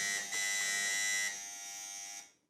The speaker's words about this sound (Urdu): اس بار سب سے پہلے بزر بجایا ہے